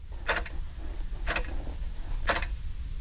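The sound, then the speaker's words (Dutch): A clock ticks at home with three crisp, evenly spaced ticks about a second apart over a steady low background hum. “Zoals het klokje thuis tikt het nergens.”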